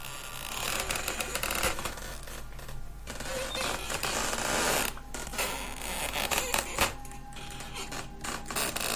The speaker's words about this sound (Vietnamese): Tiếng những thân tre cọ vào nhau cứ kẽo cả kẽo kẹt, nghe đến rợn cả người